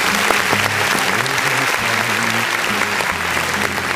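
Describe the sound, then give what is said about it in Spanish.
A recorded applause sound effect played on a radio show: steady, full crowd clapping with no pauses, while faint low music moves underneath throughout. “Ah, no, si tengo aquí aplausos, vamos a poner los aplausos.”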